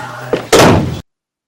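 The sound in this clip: A door being answered: a short knock-like tap, then a louder, sustained thudding rush as the door moves, which cuts off abruptly into silence.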